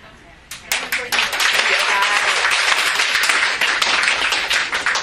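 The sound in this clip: Applause breaks out in a Buddhist study class: many dense, overlapping hand claps start suddenly and continue steadily at full strength.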